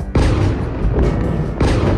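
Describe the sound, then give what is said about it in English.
Missile explosions during a Russian attack on Kyiv: a few deep, heavy booms with rumbling tails in quick succession, loud and without voices. “as Russian missiles rain down on Kyiv.”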